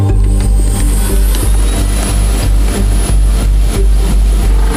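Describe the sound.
Airliner jet engines powering up for a go-around on approach in rain and strong wind ahead of a typhoon: a loud, continuous roar with a high thin whine riding above it throughout.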